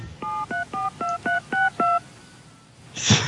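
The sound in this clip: Touch-tone dialing tones from an AT5000 telephone auto dialer: seven even, steady tone bursts in a regular rhythm, followed after a short pause by a brief crackling burst of noise.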